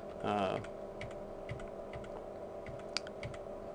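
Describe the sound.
Page Down keys pressed on a computer keyboard give a few faint, evenly spaced clicks over a steady low hum, after a brief voice at the start.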